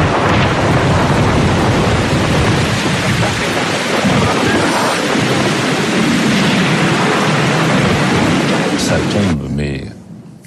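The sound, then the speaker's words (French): Heavy hail and rain pound down with thunder in a storm among mountains on an afternoon turned nearly dark. A loud, dense, continuous roar holds steady throughout, then eases off at the very end. “Des grêlons, il fait presque nuit noire alors qu'on est en pleine après-midi.”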